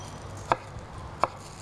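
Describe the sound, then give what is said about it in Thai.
Two crisp knife cuts as a cucumber is sliced into sticks, evenly spaced sharp chops standing alone over a faint low hum. “เราก็หั่นแตงกวาเราจะหั่นที่มีลักษณะเป็นแท่งๆเหมือนกันนะคะเพื่อจะได้ห่อได้ง่ายขึ้นนะคะ”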